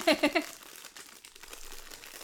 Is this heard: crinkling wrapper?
yes